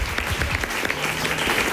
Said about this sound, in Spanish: un aplauso para mi tía Mari Carmen